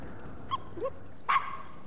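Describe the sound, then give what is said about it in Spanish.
A small-breed dog in a bathroom gives three brief, high yips and whimpers, each short and faint over a quiet, hissy background. “Edith está sentada dentro de la bañera. Mira alrededor. El perro está junto a ella.”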